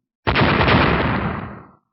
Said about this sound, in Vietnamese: Vài tiếng nổ giòn vang, sau đó thì một tiếng phốc truyền ra.